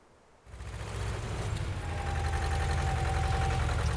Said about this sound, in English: You've been on that bulldozer since 7 this morning!